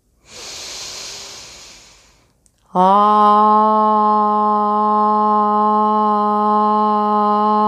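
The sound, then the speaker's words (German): A slow, deep breath drawn in through the nose, a soft airy hiss lasting about two seconds, followed after a short pause by a steady, sustained droning tone that continues to the end. “Ich atme ein durch die Nase.”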